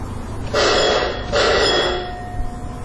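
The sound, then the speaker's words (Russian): A bell signalling that a mine cable car carrying people to and from a shaft is ready to depart: two loud, bright electric rings of similar length, separated by a short gap, over a low steady hum. “Этот звонок означает, что канатка, доставляющая людей к одной из шахт и обратно, готова к отправлению.”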